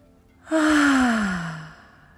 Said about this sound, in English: First things first, let's take a few deep cleansing breaths.